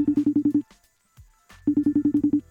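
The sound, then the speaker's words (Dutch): Ringback tone of an outgoing telephone call: two bursts of rapid, evenly pulsed mid-pitched ringing separated by a short quiet gap with faint rustle, each burst fairly loud and heard alone without talk. “Dus eh, laten we even gaan bellen. Gaan we even bellen.”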